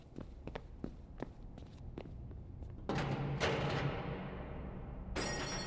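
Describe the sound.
Someone's footsteps as they run off: a brisk series of light, quiet thuds, followed by a rougher, denser stretch of scuffing noise.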